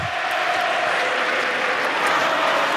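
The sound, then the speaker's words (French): Dense, steady crowd noise from a tennis match audience chanting for players Flavio and Sacha, a continuous wash of voices without breaks. “Bon là c'est Flavio hein, qu'on entend toujours de la part du public. On entend quelques petits Sacha. Timide.”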